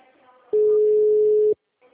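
Telephone busy tone after a dropped call: one steady, loud, mid-pitched beep lasting about a second, then a brief silence and the faint start of the next beep.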